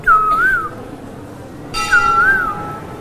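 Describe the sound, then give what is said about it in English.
Sweet bird whistles ring out in a moonlit garden in full bloom: two clear, warbling whistled phrases that waver up and down in pitch, with a short pause between them and a steady tone held beneath the second. “The humming of the bumblebees and the sweet whistling of different birds surcharged the atmosphere.”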